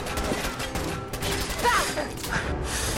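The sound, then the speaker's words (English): Sniper rifle gunfire in a video game, sharp cracking shots mixed with mechanical clatter in a busy, dense burst of action sounds. “I missed again! I thought I was gonna shoot Kate. Alright, this is way too close quarters to use a... This is way too close of quarters to be using a sniper”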